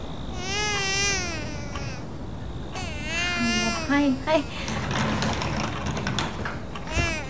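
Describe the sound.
A baby cries in a poor household during a home visit. Wavering, high-pitched wails come in a few bursts, mixed with adult speech and background noise.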